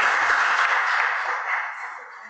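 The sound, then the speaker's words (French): Applause from an audience at a festival sound design workshop: a dense, steady crackle of many hands clapping that holds throughout and eases slightly toward the end. “Merci beaucoup, applaudissez les parties.”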